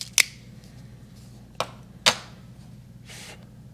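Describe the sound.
A cutter takes the cap off a Davidoff Aniversario No. 1 Limited Edition 2023 cigar with three sharp, crisp snips spaced apart, followed by a softer brushing sound in an otherwise quiet clip.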